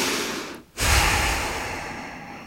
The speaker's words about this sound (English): And exhale.